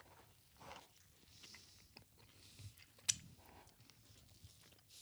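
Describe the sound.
Chewing a spicy crispy chicken sandwich from McDonald's: faint, soft crunching bites and mouth sounds, with one sharper crunch near the middle and no talking.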